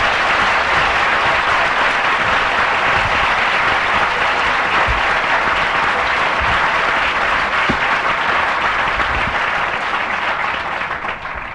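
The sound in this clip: An audience at an LSE lecture gives sustained, dense applause to welcome the Prime Minister of New Zealand, steady throughout and tapering off at the end.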